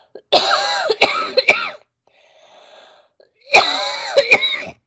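Coughing and throat clearing from a scratchy throat come in two loud, harsh bouts separated by a quiet gap, each with several sharp catches.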